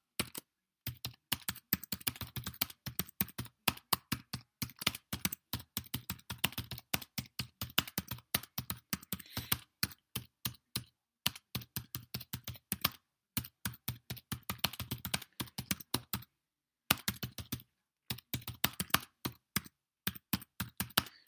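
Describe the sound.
Someone types notes on a computer keyboard: many rapid key clicks in steady bursts, broken by a few brief pauses, heard alone.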